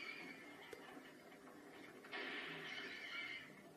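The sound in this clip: A shrill, horse-like whinny voiced for a rabbit in a film scene runs unbroken through the whole clip, growing louder and brighter partway through.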